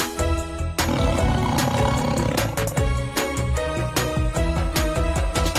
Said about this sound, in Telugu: పులి గురించి తెలుసా పిల్లలు? ఈ పులి సింహం, జాగువార్ ఇంకా చాలా రకాల జంతువుల కన్నా పెద్దది.